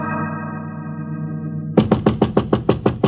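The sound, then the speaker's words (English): Knocking on a door comes in a rapid series of sharp raps after a held musical tone, with no voices. “Sorry, I knocked,”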